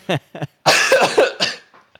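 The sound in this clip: Harsh coughing after someone inhales coffee: two short coughs, then a longer rough burst of hacking and throat clearing, trailing off into a faint final cough.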